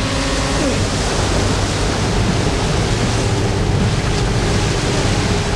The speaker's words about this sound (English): He strains to keep his head above the white, foamy water. As the river smooths out again, he swims with the current.